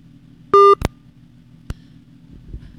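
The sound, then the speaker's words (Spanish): A phone call cuts out: a single sharp electronic beep tone, followed by a couple of isolated clicks, with faint background hiss in between. “Bueno, se volvió a cortar la llamada.”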